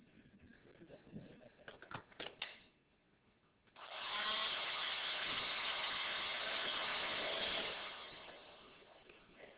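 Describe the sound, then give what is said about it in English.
A powered blower, not a hedge trimmer, clatters briefly and then roars into a steady, loud rushing whoosh. The whoosh holds for about five seconds before winding down. “It's a blower. You can't trim hedges with this.”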